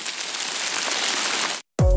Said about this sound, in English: Listen to sounds of Western New York and Southern Ontario, like local waterfalls or rain falling on the west side of Buffalo. Hit play and take a deep breath.